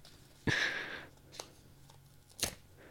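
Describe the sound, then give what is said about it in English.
A gift card edge scrapes across lottery scratch cards: one sustained, gritty rasp is followed by two shorter, sharper scratches, with nothing else under them. “get that gift card out. All right, here we go. This is a lot quicker. My bad. I'm scratching all of them.”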